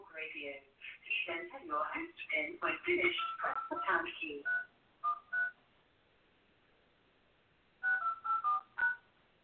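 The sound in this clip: Telephone keypad tones as a PIN is entered: a rapid run of many short beeps, then a pause and a few separate presses spaced apart.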